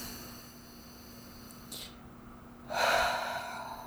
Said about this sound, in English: And take a deep breath.